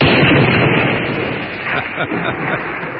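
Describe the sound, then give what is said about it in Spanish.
A gunshot is fired at a target during weapons training in Medellín: a loud, broad blast with a rumbling tail that slowly fades over a few seconds. “Sostén esta arma. A ver, pues. Dispara al blanco.”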